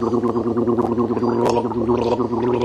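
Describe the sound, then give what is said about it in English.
Gargling played as a sound effect from a sound effects CD: a continuous wet, bubbling gurgle with a steady throaty tone that runs for the whole clip without pause, alone with no talk. “One of these days, I'm going to really regret handing you that sound effects collection of CDs. Right. Stop gargling.”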